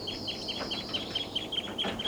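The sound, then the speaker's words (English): A flock of birds calls from a perch before taking off, giving many short, high chirps in quick succession. The calls are faint over a steady background hiss. “and they're calling a lot. Seven birds and they're taking off.”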